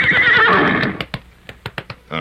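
Taconite, the Iron Ranger's horse, gives a loud, shaky neigh lasting about a second, followed by a few sharp, separate knocks like hooves.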